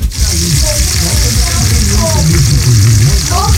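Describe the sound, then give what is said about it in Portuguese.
Feijoada sautéing in a pot gives a loud, steady sizzle and crackle that lasts the whole clip, with a voice faintly audible underneath. “Refogando aí a feijoada, parceiro, velho.”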